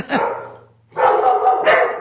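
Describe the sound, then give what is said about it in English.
Dogs barking at home in loud, rough bursts: a short volley, a brief pause, then a longer run of overlapping barks with a few higher yips, with no talk over them. “I have dogs. There's some nature. They usually stay pretty quiet.”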